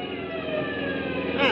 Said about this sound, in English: How can I slow down with all those police cars on my tail?